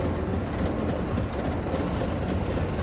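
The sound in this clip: A metro train approaches a station platform with a steady, loud rumble and rattling clatter, broad and unbroken throughout, with no voices.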